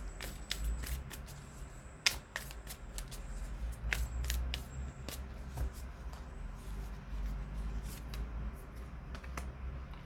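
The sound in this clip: Tarot cards are handled and drawn from a deck, with many crisp flicks, snaps and riffles scattered irregularly across ten seconds and no voices.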